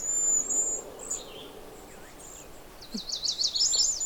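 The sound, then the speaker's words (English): Chestnut-sided warbler song mixed with very high, thin cedar waxwing calls. The calls are faint and scattered over steady outdoor background noise, and a short burst of warbling notes comes near the end. “that was the chestnut-sided warbler, but also those high sounds you're hearing sort of in the background are the cedar waxwings”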